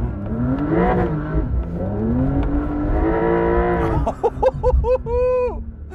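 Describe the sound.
A car engine revs hard while driving on sand dunes with stability control switched off, its pitch surging up and down in loud, sustained waves, with voices near the end.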